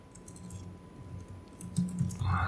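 Quick, uneven clicks of a computer keyboard as a Google search is typed, with a low hum beneath. The typing grows louder toward the end.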